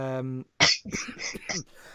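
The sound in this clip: A short choking cough cuts off a voiced sound: one harsh, loud burst followed by a few rough, throaty sputters.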